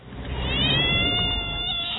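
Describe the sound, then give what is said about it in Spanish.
A cat gives one long, drawn-out meow, loud and tonal, holding steady before it tapers off at the end, with no talking. “¡No! ¡Ojo con el gato!”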